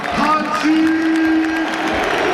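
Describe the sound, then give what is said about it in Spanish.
Stadium crowd ovation and applause at Camp Nou for a football club's coach: a dense, steady roar of clapping and cheering that holds at an even loudness for the whole moment. “Ovación extraordinaria.”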